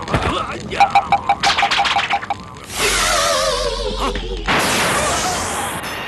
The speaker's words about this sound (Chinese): 打中他了，莲公子，他被我的木鱼打中，不管他是妖是魔，准死无疑。